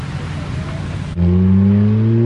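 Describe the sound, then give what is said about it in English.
A Ferrari convertible sports car driving up the winding ramps of a parking structure: its engine starts suddenly into a loud, steady low drone that rises slightly in pitch. “Sonny's Ferrari drives up the winding ramps of a parking structure to the open rooftop. As it parks on the empty level”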